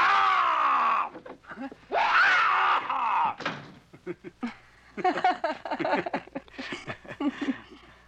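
A person screams very loudly in a dubbed 1938 comedy film: two long, loud, strained cries, then a run of shorter, fainter vocal bursts.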